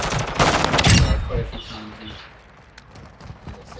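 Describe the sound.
Pistol gunfire in a video game: a quick cluster of loud shots packs the first second or so, then fades into a quieter stretch of softer game sounds.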